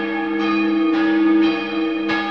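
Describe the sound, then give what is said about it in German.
Church bells ring, two cast in 1651 and a larger one from 1816. About four strikes fall at roughly half-second intervals, each blooming over a steady, overlapping hum of sustained ringing tones, with no voices. “Zwei Glocken aus dem Jahr 1651 läuten heute noch neben der großen von 1816.”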